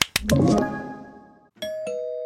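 A doorbell in an advert chimes twice: a first cluster of quick strikes that fades, then a two-tone ding-dong whose tone rings out clearly.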